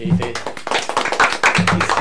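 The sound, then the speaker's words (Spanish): People clapping after being prompted, with many sharp, uneven hand claps in quick succession and voices heard briefly among them. “Fantástico. ¿Aplaudimos?”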